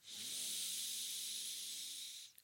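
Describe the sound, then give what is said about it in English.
Long slow exhale through pursed lips, as if through a straw, during a breathing exercise: one faint, even, airy hiss held steady for over two seconds before cutting off. “when you blow out, imagine that you're blowing out through a straw or that you're fogging a mirror”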